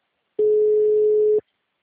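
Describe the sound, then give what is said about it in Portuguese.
Telephone ringing tone while placing a call: a single steady, mid-pitched electronic tone that sounds for about one second and then stops, with silence on either side. “Tô ligando, vê se ele atende.”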